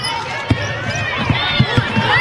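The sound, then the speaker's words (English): Basketball dribbled on the court during a game: a few dull, irregular thumping bounces beneath continuous talk. “You probably heard the dribble on the radio there.”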